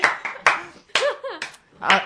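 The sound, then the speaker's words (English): Hands clap close to the microphone, a few sharp, loud claps mixed with excited voices calling out. “stop clapping by the mic.”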